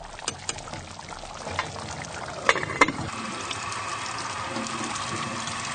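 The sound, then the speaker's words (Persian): Tap water pours steadily onto a drained rice basket being rinsed, a continuous splashing flow broken by two sharp knocks partway through. “سبد برنج صاف کرده رو زیر شیر آب میگیره.”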